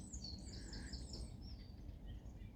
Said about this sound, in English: maybe you simply listen to the sound of the birds, the bird song that is all around, and let those sounds carry you